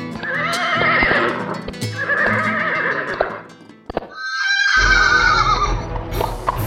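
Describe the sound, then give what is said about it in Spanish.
A horse whinnies loudly a few times, each neigh long, shrill and wavering, with short pauses between them. A few sharp clicks like hoofbeats sound in between as it trots. “Mientras cabalga al trote corto, Martina”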